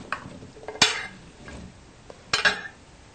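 Vegetables tossed with a generous amount of olive oil in a pan: two sharp clattering scrapes of food against metal, with softer stirring between them, fairly quiet.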